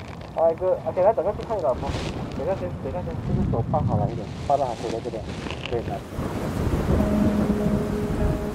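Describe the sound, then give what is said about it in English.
Steady rain with a low rumble underneath. People talk over it for the first several seconds, then the rain goes on alone as a broad, even hiss. “We can see now it's raining, so it doesn't really go according to the plan.”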